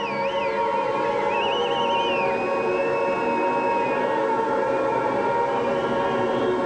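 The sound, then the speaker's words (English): Air raid sirens wail through a 1983 hard rock concert in Ludwigshafen, Germany, the siren pitch wavering and sweeping at the start before settling into a held tone over a dense, loud, continuous wash of sound. “The air raid sirens.”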